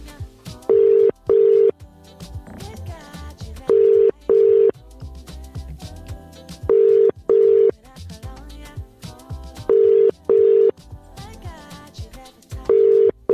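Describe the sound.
An outgoing phone call rings with a double-burst ringing tone, five evenly spaced pairs of bright tones repeating at a steady pace. A continuous fainter background sound runs underneath.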